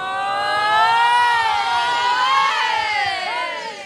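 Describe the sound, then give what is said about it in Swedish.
A crowd fills a hall: a loud, dense mass of many voices with wavering, sustained tones that swell and hold, then ease slightly at the end. “jag har kommit in i hallen. Välkommen in, Ove. Där det fylls på undan för undan, en härlig syn att få se.”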